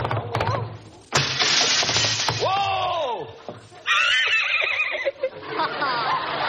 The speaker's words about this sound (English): He'll gallop through the window. He's riding for trouble.